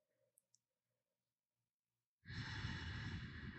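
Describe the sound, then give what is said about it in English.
A slow exhale through the nose with the throat slightly closed during a breathing exercise begins abruptly after near silence, a loud, steady, airy hiss that holds evenly to the end. “You'll notice a slight sound that comes just from closing the back of the throat slightly.”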